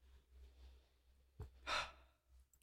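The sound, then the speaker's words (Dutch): Faint breathing in and out during a guided breathing exercise: a soft, airy breath stands out briefly against near silence. “Adem nog een keer in en uit en kom dan weer terug in de ruimte.”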